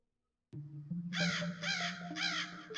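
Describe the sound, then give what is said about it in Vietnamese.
Crows cawing at night, three harsh, bright calls in a rhythmic series over a steady low tone that runs underneath. “tiếng chim lợn cùng với tiếng quả réo lên từng chập giữa đêm khuya thanh vắng khiến cho bà Năm giật mình”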